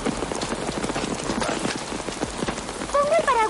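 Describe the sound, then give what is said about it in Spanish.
Steady rain falling outdoors, a dense, even patter filling the whole clip without a break. “Lamento que esté lloviendo.”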